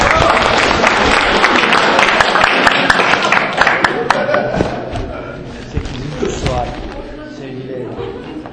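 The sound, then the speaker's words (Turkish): Loud applause and crowd noise with sharp thumps greet a quiz winner who has just won a flash drive. The clapping is dense at first, then fades as a host talks. “Evet, alkışlıyoruz. Alkışlıyoruz.”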